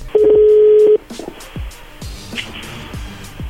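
Telephone tone as a number is dialed again: one steady, loud electronic tone lasting just under a second, followed by quieter, scattered low noises.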